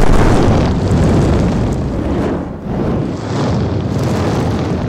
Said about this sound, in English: Feel the heat with scorching fireballs.